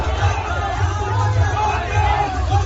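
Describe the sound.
Crowd shouting and yelling, a loud, continuous babble of many voices with scattered cries rising out of it, steady throughout, over a pulsing low thump of background music.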